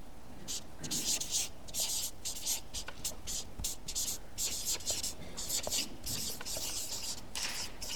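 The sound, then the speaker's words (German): Writing a word by hand on a board: rapid scratchy pen strokes in quick uneven bursts, steady and fairly loud throughout. “Besitzerwechsel schreiben wir darüber mal.”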